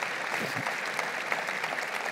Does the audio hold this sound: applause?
yes